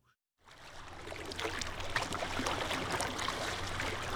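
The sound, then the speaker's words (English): Waves of Lake Michigan wash in as a broad hissing surge of water. It starts after a brief silence and swells steadily, with splashy crackles throughout. “the sound you're hearing right now is one of our most popular requests, is the soothing sound of Lake Michigan”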